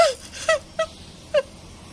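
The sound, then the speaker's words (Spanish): A woman sobs in a few short, falling whimpers separated by brief pauses, each cry sharp and high, with no other voices. “Skyler se sienta, rompe a llorar y tira el cigarrillo de una taza.”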